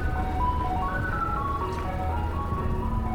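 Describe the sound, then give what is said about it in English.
An ice cream van chime plays its tinkling melody of stepped tones as the van drives through a quiet neighbourhood. The tune stays steady and fairly loud over a low engine rumble. “an ice cream man drives a distance before there's someone to spend a dollar.”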